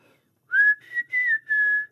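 A family whistle signal: a clear human whistle in four linked phrases. It rises sharply at the start, then holds a fairly steady high pitch, with no talk.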